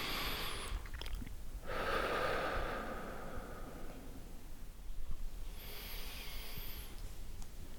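A few slow, deep breaths taken with eyes closed while sitting in a barber's chair, each a soft, airy rush of air with quiet gaps between, and no talking.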